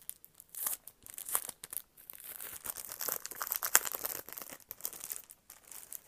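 A package's wrapping crinkles and tears as it is opened for ASMR. Crisp rustling crackles come in irregular bursts, growing denser through the middle, with no talking.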